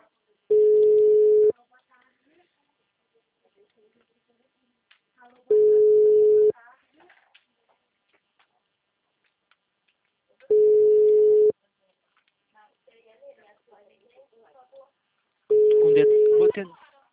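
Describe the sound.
A phone line gives a tone after a dropped call: four steady mid-pitched beeps, each about a second long, spaced roughly five seconds apart, with faint noise between them.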